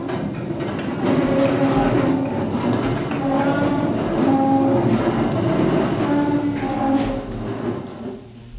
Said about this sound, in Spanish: me voy a decantar por una línea de metro cuando pasa el metro